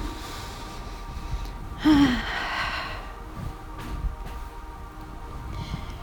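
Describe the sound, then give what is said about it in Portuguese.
A single deep breath is drawn and released during a guided violet-flame meditation. It comes as one soft breathy rush near the middle over faint background hiss, with no talk. “Por isso, inspire, solte o ar três, quatro vezes.”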